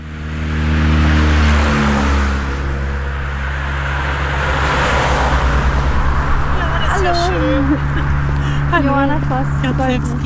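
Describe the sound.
Expressway traffic beside a field path near Delitzsch makes a steady, continuous rush with a low engine hum underneath, and a voice talks over it during the second half.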